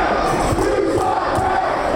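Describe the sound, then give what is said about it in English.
A rowdy pro wrestling crowd heckles a masked villain in tight spandex. The dense, loud roar of shouting voices runs unbroken through the short moment. “The rowdy crowd of hecklers hurl their insults at the tight spandex-wearing masked villain as he plays the role of the bad guy and mocks them right back.”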